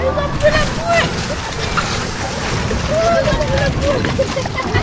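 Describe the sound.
Water sloshing and rushing around a sailing boat on open water, continuous and fairly loud, with steady wind noise throughout.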